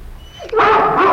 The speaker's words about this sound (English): Hey, dog! Hey, dog! You think you're so tough?